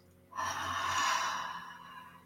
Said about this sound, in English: Nice big exhale out of your mouth. One more time. Inhale. And exhale.